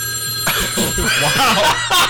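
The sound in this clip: A telephone rings with an incoming call to a radio show. Steady, high ringing tones sound through the whole clip, mixed with other busy sounds.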